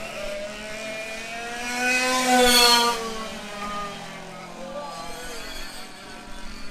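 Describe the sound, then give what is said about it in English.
A race car passes on a track during a race, its engine whine swelling to a loud peak and then dropping in pitch as it goes by, with another fainter engine passing afterward. “There you go. That's the sound of the leader, Ralph Spill. We're just last in the field. Second place for Randy Adair going by right now.”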